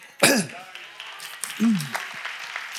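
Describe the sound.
Someone clears their throat during a church sermon, with two short, rough, rasping bursts about a second apart and speech around them.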